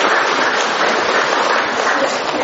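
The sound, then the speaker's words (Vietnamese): Dense, even applause from an audience at a church gathering, welcoming a woman forward to testify. Clapping holds at a steady, full level for the whole stretch, with no voices on top. “chúng ta cho một tràng pháo tay mời cái cô đó lên.”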